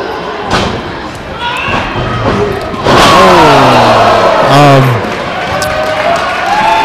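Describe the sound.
Heavy slam of a wrestler landing on another wrestler in the corner after a sunset flip during a pro wrestling match, a loud thud standing out amid crowd noise while commentators talk.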